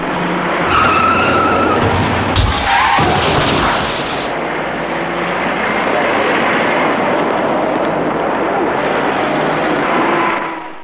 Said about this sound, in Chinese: 在眼前由东向西方向的车道里即将发生一起多车相撞的事故，您注意看。